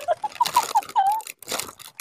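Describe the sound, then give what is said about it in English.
A spicy snack package being torn open, heard as a quick run of sharp crinkling and ripping bursts, a short pause, then more plastic rustling. “Okay, I have to just, like, tear it. I got it open.”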